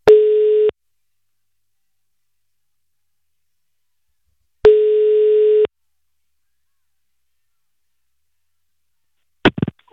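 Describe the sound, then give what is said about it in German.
Telephone call being placed: two steady, mid-pitched ringing tones, each about a second long and separated by a long silence. A short, sharp burst of sound follows at the very end. “Na dann lass mal anrufen hier.”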